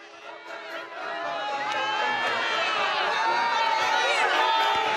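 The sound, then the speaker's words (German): A crowd of faithful in St Peter's Square in Rome greets Pope Leo XIV as he rides through in the Popemobile at a general audience, a dense, continuous roar of cheering voices that swells after the first second. “Papst Leo der 14. ist bereits auf dem Petersplatz unterwegs. Im Papamobil fährt er durch die Menge, begrüßt die Gläubigen, genießt sichtlich den Kontakt.”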